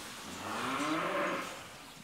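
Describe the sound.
Cows in a cattle stall: one drawn-out, low moo swells and then fades, heard alone over a soft background hiss.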